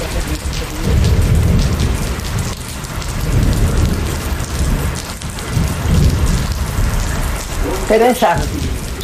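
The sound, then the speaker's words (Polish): A thunderstorm with steady, heavy rain and low rumbles of thunder that swell several times beneath the downpour. A brief voice cuts in near the end. “burza idzie szybciej”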